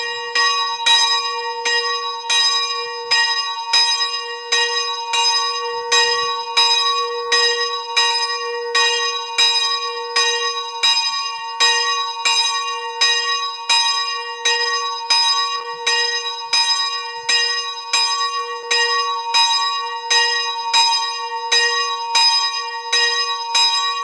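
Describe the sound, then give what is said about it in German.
A village church bell in Greit in the Salza valley, Styria, Austria, rings at noon with many loud, evenly spaced strokes in a steady rhythm, each ringing on under the next, with no voices. “Es ist 12 Uhr. Sie hören die Glocke der Josefikirche in Greit im Salzertal in der Steiermark.”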